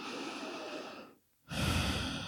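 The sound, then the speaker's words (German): Deep breathing in and out during a guided relaxation: a long soft breath, a short silent pause, then another full breath, all faint and unaccompanied by talk. “Und atme nochmal tief ein und aus.”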